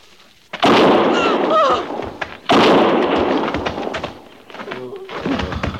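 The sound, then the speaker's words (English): Two loud gunshot blasts, each followed by a long rumbling decay, with quieter rustling and faint sounds in the gaps between and after them. “One more step, and I'll fire.”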